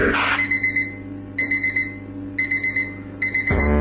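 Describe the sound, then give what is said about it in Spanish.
An alarm clock goes off at five in the morning, sounding four bursts of rapid, high-pitched electronic beeps separated by short pauses. “Suena la alarma, 5 de la mañana.”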